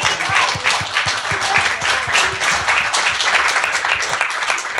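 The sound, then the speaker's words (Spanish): An audience applauds at the inauguration of a hall. The clapping is dense and sustained, holding steady throughout. “Sí, aplaudámoslo.”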